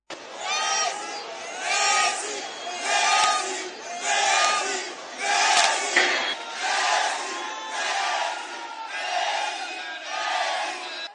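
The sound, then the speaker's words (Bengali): Agitated crowd of ticket-holding spectators in a packed stadium in Kolkata, loud massed shouting rising and falling in steady, rhythmic swells like a repeated chant. “কিন্তু ticket কেটে মাঠে আসা সাধারণ দর্শকরা মেসিকে ভালোভাবে দেখতে না পেয়ে উত্তেজিত হয়ে ওঠেন।”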